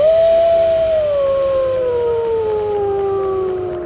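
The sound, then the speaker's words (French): Wolves howling in icy air: a long, loud, sustained howl that glides slowly downward in pitch across the whole clip. “Notre nature a perdu une de ses plus grandes voix, des plus émouvantes, avec le chant des loups dans l'air glacé.”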